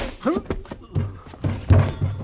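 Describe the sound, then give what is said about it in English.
Dull, blunt thumps of a man being struck with a pistol in an old western drama. A few muffled hits blend with a man's grunts and strained vocal sounds. “You didn't have to pistol whip the doc.”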